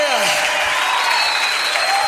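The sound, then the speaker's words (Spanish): An audience claps steadily at a worship service. The dense, continuous applause sits under sustained music tones and a voice. “dale fuerte ese aplauso al que es digno de honra, de gloria, de adoración, de alabanza.”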